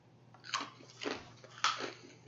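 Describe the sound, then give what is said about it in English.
Cracker being eaten during a tasting: a few crisp, faint crunches spaced about half a second apart, alone without talk. “I'm tasting number one again with a cracker again.”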